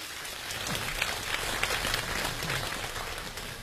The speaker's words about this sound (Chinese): 掌声有请连春建